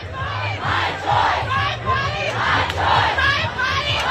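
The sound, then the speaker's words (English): Crowd outside the US Supreme Court reacting to the ruling that overturned the constitutional right to abortion, with loud cheering and protest chanting in repeated rhythmic waves of many voices. “The announcement was met in front of the court with cheers and protests.”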